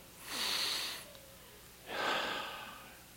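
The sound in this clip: A slow, deep breath made as two long airy passes of breathing, each swelling and fading, separated by a short quiet gap, soft and alone with no talk.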